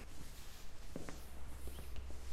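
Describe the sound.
Footsteps of someone walking, a series of soft, irregular thuds over a steady low hum.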